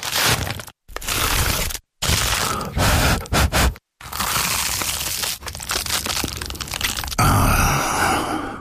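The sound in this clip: Crunching as someone bites into and chews an award-winning baked pie, loud crackling bursts broken by a few short pauses, then a long stretch of steady crunching that changes texture near the end.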